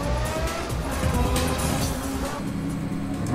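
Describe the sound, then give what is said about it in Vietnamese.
Police cars braking hard and swerving, a loud, continuous roar of engines and road noise that stays dense and steady throughout the short stretch. “Tự Nhất Dân và những chiếc xe cảnh sát hoàn toàn không ngờ tới chiêu này của Lâm Hải, lần lượt phanh gấp, đột ngột quay đầu xe.”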